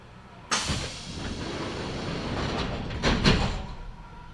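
Doors of a Kintetsu Nagoya Line local train slide shut with a sharp thud, followed by a steady rumbling as the stopping train pulls away, with a second louder clunk near the end.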